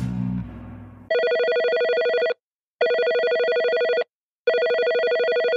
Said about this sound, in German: Kann man den auch einfach mal anrufen? Logisch. Wir probieren es mal. Der spontane Anruf.